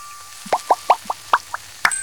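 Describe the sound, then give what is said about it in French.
Dish soap is poured into water to make foam, giving a series of about seven distinct liquid plops, each short and bright, fairly evenly spaced, with nothing else heard. “Tout doux verse un peu de liquide vaisselle dans l'eau. Et ça fait de la mousse.”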